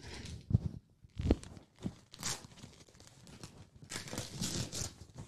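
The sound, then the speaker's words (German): Black-and-white gift paper crinkling and tearing as a present is unwrapped, in irregular bursts of rustling and ripping with short quiet gaps between. “So, soll ich auspacken oder willst du auspacken? Pack du aus.”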